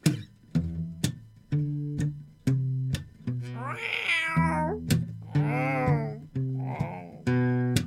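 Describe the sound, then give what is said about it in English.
Drawn-out, wavering meows from an old yellow cat sound several times over a bouncy, steady musical beat with a low plucked bass. “He had an old yellow cat that would not leave home.”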